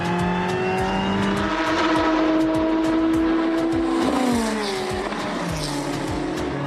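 A Ferrari 488 GT3 race car driving on track gives a loud, steady, high-revving engine drone. The engine note dips and then climbs again partway through, with no voices.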